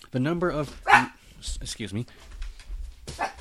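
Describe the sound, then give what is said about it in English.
A dog barks a few times in the background while a person keeps talking, the short barks partly overlapping the speech. “Sorry about the barking.”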